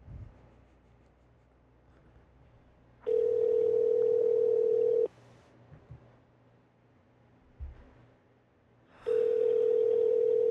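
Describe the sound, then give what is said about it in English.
Telephone tones sound while a call is placed: two long, steady, pitched tones, each about two seconds, separated by a quiet pause with faint handling noises. “Let's call Bjorn. You ready?”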